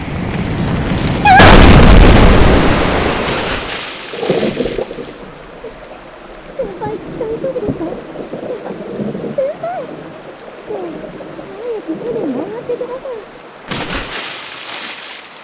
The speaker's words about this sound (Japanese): 攻撃の予備動作に入りました。高圧の水の爆弾が降ってきます。